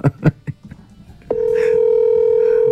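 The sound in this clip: Telephone ringback tone on an unanswered call: after a few short bursts of voice, a loud, steady electronic tone starts partway through and holds unbroken to the end.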